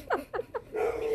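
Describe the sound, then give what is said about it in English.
A dog gives three short, high-pitched yapping barks in quick succession, fairly faint, followed by a steady hiss of background noise. “That was a dog.”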